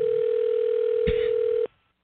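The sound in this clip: A telephone dial tone while calling someone back: a steady, continuous hum lasting under two seconds, with a brief click partway through, before it cuts off abruptly into silence.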